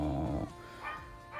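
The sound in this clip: Faint dog barking, from a neighbour's dog rather than the household's own, comes as a few short, quiet yips and barks after a louder low rumble at the start.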